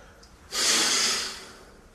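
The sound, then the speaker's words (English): A single hard exhale through the nostrils after a nasal rinse makes a loud, breathy snort that starts suddenly and fades over under a second. “And then it's important to kind of do a big exhale out to try and dry out the nostrils afterwards as well. So I'll do another little bit on this and then I'll switch nostril.”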